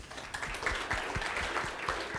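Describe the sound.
Conference audience applauding to welcome a speaker giving a talk on live images for ARM single board computers, with many sharp claps mixed into a steady, moderately loud clapping sound.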